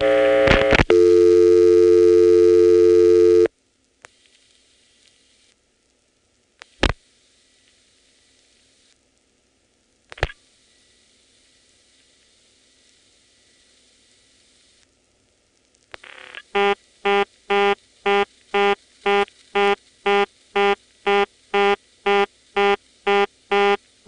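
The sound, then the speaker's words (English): Stromberg reorder tone from a vacant level on a 690 incoming selector in a step-by-step telephone exchange. A steady tone and a few isolated dialing clicks come first, then a loud, rapid, evenly pulsed buzzing tone repeats many times. “Vacant levels on the 690 incoming selector go to a very cute Stromberg reorder, which we'll now get by dialing 49 to drop the register sender, 0 for the 690 incoming selector, and then a 0, which is vacant.”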